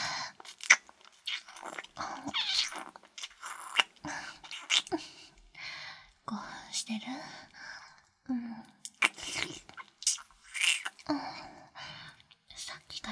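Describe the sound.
Wet kissing sounds: many close lip smacks and mouth noises repeat steadily, mixed with soft breathy whispering between them.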